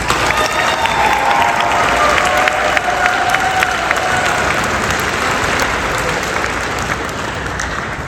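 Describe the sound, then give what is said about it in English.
Applause from an audience at a Robertson County Schools event, welcoming Commissioner Kenny back to speak: a steady, dense wash of clapping that holds strong throughout and eases slightly toward the end. “At this time, I'd like to welcome back Commissioner Kenny. Big hand.”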